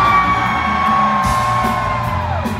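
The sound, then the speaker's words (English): A large crowd at an arena punk rock concert yells and whoops on cue in a sustained, loud roar, with a held ringing tone running over the noise throughout. “I want to hear you guys yell on three, okay? One, two, three, let's hear ya!”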